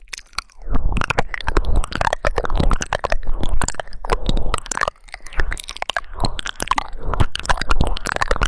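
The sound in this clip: Close, crackly rubbing and tapping on the right ear during a mock medical palpation: dense bursts of scratchy, crunching contact sounds with brief pauses, and no talk.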